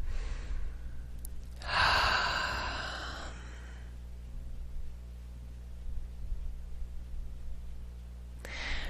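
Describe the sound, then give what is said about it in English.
A person takes a long, deep breath during a guided relaxation exercise, the soft rush of air rising and fading over a couple of seconds, followed by quiet and another breath starting at the end, over a faint steady hum. “Nice deep breath.”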